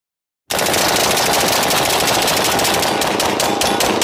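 Rapid automatic gunfire at a shooting range starts abruptly after half a second of silence. It runs as a dense, loud, continuous stream of shots to the end, with no voices.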